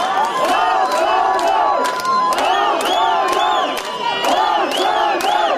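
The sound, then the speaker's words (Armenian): A crowd gathered at a court cheers a ruling with loud, sustained shouting and chanting voices, cut through by sharp, rhythmic claps that repeat regularly throughout. “Դատարանի Բաքում հավաքվածները ծափողջություններով են արձագանքել որոշմանը։”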